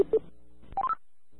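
Touch-tone dialing beeps for a phone call: a few short, clear tones come in quick succession, set against brief stretches of quiet.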